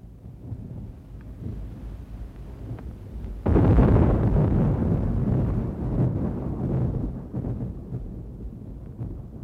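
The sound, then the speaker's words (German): Thunder in an autumn thunderstorm: a low steady rumble, then a sudden loud crack that rolls on as a long, slowly fading rumble. “Das Gewitter ist vorbei”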